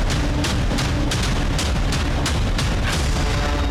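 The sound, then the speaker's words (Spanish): Stun grenades exploding during a dawn police raid on the Bronx area of Voto Nacional in Los Mártires: many sharp, dry bangs in quick, uneven succession over a constant loud roar of noise. “El sonido seco de las granadas aturdidoras rompió el silencio de la madrugada.”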